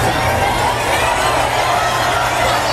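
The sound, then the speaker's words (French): Crowd roar from nearly 10,000 people on the central court at Flushing Meadows, New York, cheering Roger Federer's entrance for a practice session. A loud, continuous wash of cheering and shouting holds without a break. “Écoutez l'ambiance hier à New York pour son entrée sur le court.”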